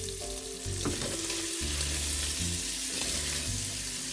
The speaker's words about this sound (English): Okay, I've got a good amount of fat now that's come out from the bacon. So I'm now going to add my onions.